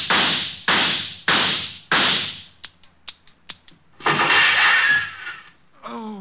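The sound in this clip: Four loud gunshots from a radio drama crack out in quick succession, each with a short ringing tail. A few softer clicks follow, then a burst of noise, with a voice starting at the very end.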